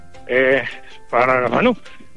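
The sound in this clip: Sheep from a flock guarded by mastiffs in wolf country give two loud, wavering, nasal bleats, separated by a short pause.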